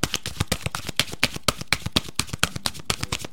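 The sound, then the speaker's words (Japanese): Cards being shuffled and handled while a message card is drawn from a deck: many quick, crisp flicks and rustles in a steady, fairly even rhythm, moderately loud with no talking. “せーの、よいしょ。Don't sweat the small stuff のカードが出てきました。”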